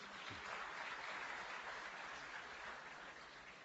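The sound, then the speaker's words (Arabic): Faint audience clapping for a young boy at a gathering: a soft, continuous patter of many hands that holds steady and eases slightly toward the end. “هذا مطوع قطع عشرة صفقوا له شجعوه ما شاء الله”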